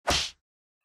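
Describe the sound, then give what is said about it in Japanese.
A single sharp slap across the face, delivered to wake someone who has fainted. It is one short, loud, bright smack that lasts a fraction of a second, and silence follows. “一発ビンタするにゃん。”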